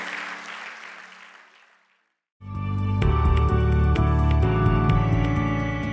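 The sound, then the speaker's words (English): Clapping from a church audience praising the Lord fades away over about two seconds, then a short silence follows before loud music starts and carries through to the end. “let's clap our hands to the Lord for what he's done in our lives.”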